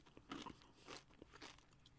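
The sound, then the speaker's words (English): Crisp crunching of bites into a tortilla chip loaded with chunky Trader Joe's salsa, a few soft, brittle crackles spaced unevenly, quiet and with no talking. “Good. I'm having another bite. It's so chunky.”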